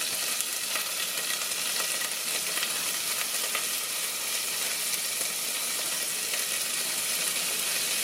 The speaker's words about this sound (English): And we're actually cooking the garlic, which is nice. Now we're gonna start adding in the corn. We're gonna start adding the broccoli.